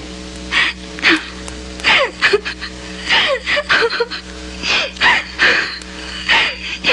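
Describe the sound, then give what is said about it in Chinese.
A woman crying loudly, with many gasping, wavering sobs and whimpering cries in uneven bursts over a steady low hum. “说完了，阿俊嫂又大哭了一场”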